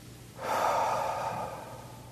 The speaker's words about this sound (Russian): Все, что мы будем делать, вдыхать в три раза вместе со мной.